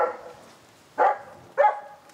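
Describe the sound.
Dog barking: three short, sharp barks separated by pauses, with the first at the very start and the last two closer together. They are loud and stand alone against a quiet background.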